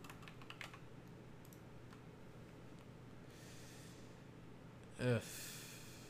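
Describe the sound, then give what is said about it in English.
Faint typing on a computer keyboard while entering a search: a few light clicks early on, then sparse taps over a steady low background, with one louder soft thump near the end. “so I'm just going to have to, like, type in wide receiver 2020 draft or something like that.”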